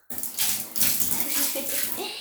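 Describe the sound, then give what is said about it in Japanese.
Hot bath water is poured to rinse away urine, a loud continuous rushing and splashing gush with uneven surges throughout, no voices. “じゃあちょっとお風呂のお湯でおしっこの方を流したいと思います。”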